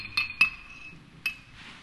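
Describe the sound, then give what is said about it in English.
A spoon clinks against a glass while stirring a thick chocolate drink: three bright, ringing taps, two close together and a third after a pause, each tone fading away. “And you stir that up. And it's thick and rich and chocolatey.”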